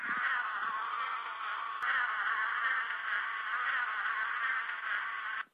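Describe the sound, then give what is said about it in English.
Bees buzzing in a steady, continuous mid-pitched drone that holds at an even loudness with no other sounds, then cuts off abruptly at the end. “That's the sound of bees buzzing.”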